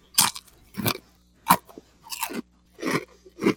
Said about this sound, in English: But, I mean, same chip. It's a Ridgy, kind of a thicker cut Wise Ridgy.